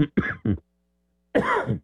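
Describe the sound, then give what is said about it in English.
A person coughs three times in quick succession, short and raspy, then after a brief pause lets out a longer, harsher cough. “I pushed my cough button and coughed.”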